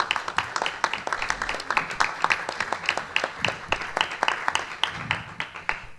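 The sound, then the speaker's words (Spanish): Audience applause at an arts archive policy conference: many hands clapping in a steady, brisk patter with sharp individual claps standing out throughout. “yo creo que también se merece un aplauso”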